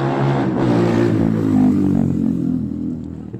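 Cars racing on a street in the El Carpio sector with engines revving, a loud, continuous droning roar that holds steady throughout with no clear breaks.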